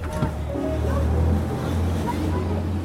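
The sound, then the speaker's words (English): A boat races at full throttle at sea, its engine a steady, low, droning roar under rushing water and wind noise. “We race in their direction at full throttle.”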